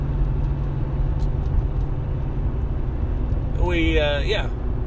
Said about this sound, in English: Well, that's a noisy truck driving past me right now.